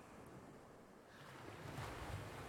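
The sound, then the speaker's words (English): Ocean waves crash and retreat in a soft, steady wash of rushing water, swelling slightly louder toward the end, with wind noise mixed in. “The crashing waves slowly retreat back into the ocean, gently pulling you along with every splash.”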